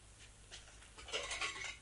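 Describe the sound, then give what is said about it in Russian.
Dishes that held food offered to Krishna being washed before the prasad is served: soft clinks and scrapes of crockery and cutlery, faint and brief, growing busier in the second half. “Нужно обязательно помыть сначала посуду за Кришной и только потом раскладывать все это по нашим тарелочкам. Ну что, я приступаю, да?”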